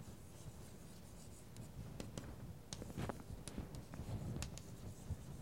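Handwriting: faint, scratchy strokes of a writing tool dragged across a surface, with irregular short scrapes and light taps over a quiet background and no voices.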